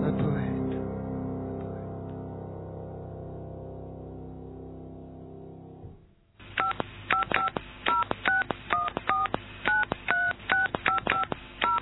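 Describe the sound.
A telephone number is dialed on a touch-tone keypad, a rapid run of many clipped, paired beeps at a steady level, following a long sustained tone that slowly fades away.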